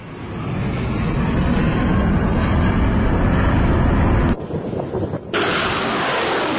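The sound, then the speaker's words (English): Missiles being fired in the Yemeni port city of Mocha, heard as a loud, sustained rushing roar. It cuts out briefly near the end and then returns. “Sounds of missiles being fired in the port city of Mocha, where the Iranian-backed Houthis have just taken control.”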